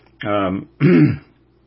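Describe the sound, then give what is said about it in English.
A person clears their throat or coughs twice in quick succession. The two rough, voiced bursts are loud and stand alone, with a short pause between them. “But excuse me for coughing in your face. I didn't mean that.”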